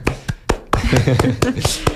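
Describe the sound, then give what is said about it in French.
Sharp hand claps struck close to a microphone in a steady, evenly spaced series of loud, crisp slaps, with a person talking underneath between the later claps. “Paris, applaudis. Tu peux applaudir dans le micro.”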